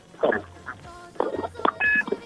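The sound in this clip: Telephone keypad tones and electronic beeps as a call is connected: several short, steady tonal bursts and a sustained beep near the end, with faint voice-like sounds between them.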